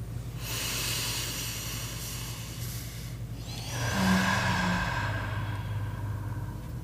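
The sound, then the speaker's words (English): A deep breath is taken together, heard as long, soft, airy breathing that swells in loudness toward the end, with no talking. “for us to take a deep breath together and get grounded”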